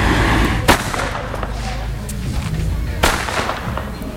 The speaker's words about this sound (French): Tu peux me dire pourquoi il fait du bruit comme ça, le fouet ? C'est le son de la petite ficelle.